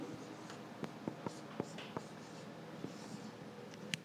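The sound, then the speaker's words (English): Writing on a board during a lesson, faint scratchy strokes with a few sharp taps at irregular intervals, over a quiet background. “so I'll write that on the board even.”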